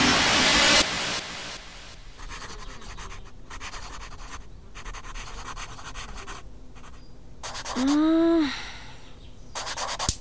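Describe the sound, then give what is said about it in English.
Writing on paper gives a scratchy, hissing rasp, with stroke after stroke in broken bursts and short gaps, steady and fairly loud throughout. “Oh, I can't write like this. Imagine a time when you only had a quill to dip in ink.”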